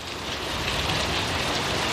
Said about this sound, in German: Sie waren zwar selten, aber dafür regnete es dann gleich wie aus Gießkannen. Und heute war so ein Tag.